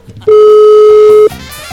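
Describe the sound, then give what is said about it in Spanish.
A single ringback tone from an outgoing telephone call, one steady buzzing tone lasting about a second, then faint background noise. “Ahí está ya timbrando, Juanito.”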